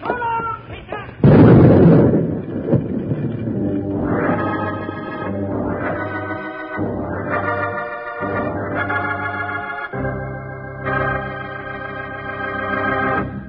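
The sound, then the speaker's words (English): Dynamite explodes after being shot at in an old Western drama, a loud, brief blast that quickly gives way to sustained orchestral music. “He's shooting at the dynamite.”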